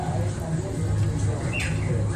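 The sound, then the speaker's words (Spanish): A talking bird in a historic place gives off squawky, speech-like calls over a steady low hum, with a brief chirp near the middle. “Sí, sí, era un pájaro parlanchín.”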